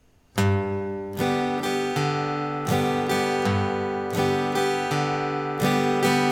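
Guitar playing a pop-style alternating bass pattern on a G chord, with a single bass note on the downstroke followed by down-up strums across the lower strings. The bright, ringing chords repeat in a steady rhythm throughout.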